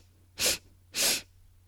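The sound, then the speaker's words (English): Two quick, sharp nasal sniffs taken during a bunny-breath breathing exercise, each a short breathy burst separated by a brief pause. “Three quick sniffs. Exhale. Two more. Inhale.”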